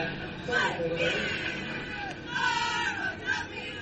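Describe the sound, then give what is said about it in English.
Northridge cheerleaders cheering at a football game, a group of voices chanting and shouting in waves that swell and fade over a steady crowd murmur. “You can hear the cheerleaders from Northridge in the background.”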